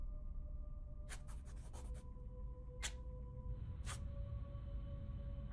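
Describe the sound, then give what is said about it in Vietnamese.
Faint, scratchy scraping of a small piece of red brick rubbed back and forth across a porch floor, a quick cluster of strokes followed by a couple of separate ones. “Tay cổ Mị cứ như vậy đưa qua đưa lại màu gạch trên hiên nhà, tạo thành những tiếng loẹt xoẹt.”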